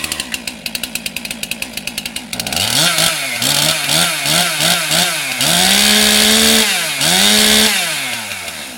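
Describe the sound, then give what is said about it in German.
A chainsaw carves a Mozart statue from a wooden log on the Bürgerbräu grounds in Würzburg. A rapid, ticking idle gives way to loud, sustained revving whose pitch swells and drops again and again. “Ein letztes Mal hallt die Motorsäge über das Bürgerbräugelände und dann steht er da. Ein Mozart für Würzburg, gesägt aus einem Holzstamm.”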